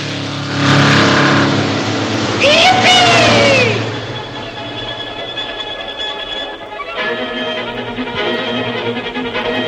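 A car engine roars as the car drives, corners and turns onto a side track. The engine noise swells, dips in the middle, then picks up again, with a brief curving high tone partway through.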